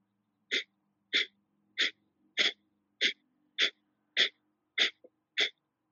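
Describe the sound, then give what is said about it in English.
Breath of Fire yogic breathing: a steady series of nine sharp, forceful breath pumps, evenly spaced about every half second, each a short breathy puff, with no talk between them. “So if this is your first time practicing Breath of Fire, I like to just place a hand over the stomach, over the abdominal region, and you can really feel the pumping or chugging of the navel center.”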